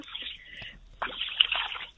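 Cold water sloshes and swishes as a person wades knee-deep into Lake Udjaure in Arjeplog, in two faint, muffled bursts of irregular splashing with a short pause between.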